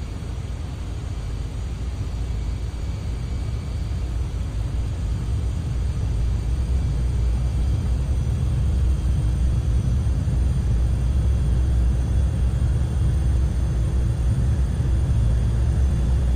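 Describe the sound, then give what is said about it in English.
Jet aircraft engines spool up to takeoff thrust on a runway: a broad, steady roar with deep rumble that builds in loudness over the first several seconds, then holds at a sustained, even level. “Parking brakes have been released. We are ready to roll. Apply takeoff thrust. Roger. Applying takeoff thrust.”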